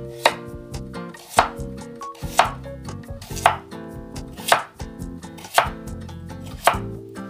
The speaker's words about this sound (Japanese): 半分に切ったら平らな面を下にして切るとすごく安定しますね。